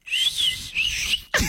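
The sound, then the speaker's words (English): A person whistles a short, high, wavering tune in two phrases separated by a brief gap. The whistling is loud and clear with no talk, and it ends with an abrupt thud. “We need you guys to come complete that whistle.”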